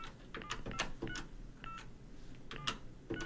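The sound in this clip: Faint telephone dialing tones sound as a radio phone-in call connects to a listener: a few short electronic beeps with light clicks between them.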